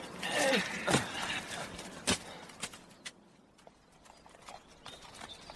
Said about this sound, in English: I will picket the horses over here.